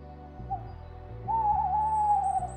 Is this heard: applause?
no

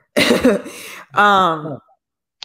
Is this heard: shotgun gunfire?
no

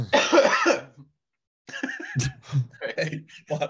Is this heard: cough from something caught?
yes

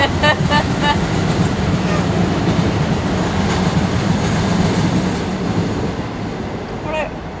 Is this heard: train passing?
yes

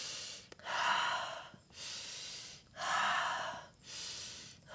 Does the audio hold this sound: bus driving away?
no

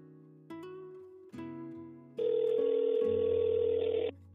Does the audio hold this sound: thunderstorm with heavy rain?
no

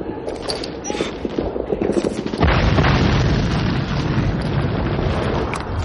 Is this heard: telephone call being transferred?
no

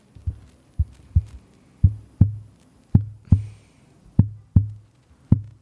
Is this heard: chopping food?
no

